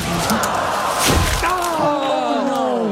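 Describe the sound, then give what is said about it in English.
Video game golf ball slicing into trees and hitting a bald eagle's nest: a brief thudding crash with breaking and snapping sounds, and a voice speaking around it. “He hit a nest that time.”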